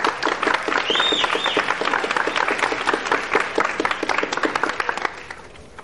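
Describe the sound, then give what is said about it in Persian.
Audience applause from a crowd at a university event, with dense, steady clapping and a couple of shrill whistles early on, fading out near the end. “یه دست بزنید دو تا سوت بینش باشه”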